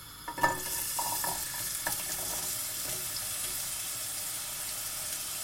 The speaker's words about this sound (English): Okay, now what I'm going to do is I'm going to put some olive oil into a saucepan. Like that. Okay, now that's nice and hot, I'm going to throw in the vegetables.